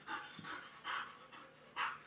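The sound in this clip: An excited dog pants in quick, rhythmic, breathy puffs. The panting is soft and faint, with slightly stronger bursts at intervals and no voices over it.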